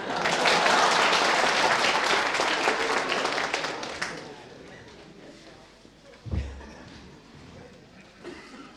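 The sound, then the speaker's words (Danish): Audience applause after a band plays an encore. Loud, dense clapping lasts about four seconds and then fades to near quiet, with a single dull thump afterward. “et klap til, og vi har givet et ekstra nummer.”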